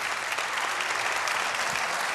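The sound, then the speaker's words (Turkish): Applause from an audience at a performance: a brief, thick wash of many hands clapping at a steady level, heard alone. “Efendim çok teşekkür ediyorum kıymetli alkışlarınıza.”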